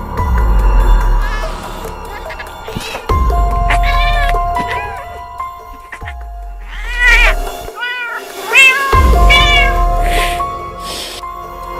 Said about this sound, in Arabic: عاوز أفتح لكني خايف لأني سامع جوه الأوضة صوت قطة. احنا ما عندناش قطط.